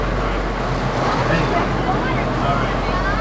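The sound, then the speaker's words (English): A steady, loud rumble and rushing noise from a large off-road safari ride vehicle carrying around 15 to 20 passengers at Six Flags, continuous and unbroken throughout. “right now we are on the covered wagon safari ride, or I don't know, we are on safari off-road adventure. It's a big car of about maybe 15-20 people.”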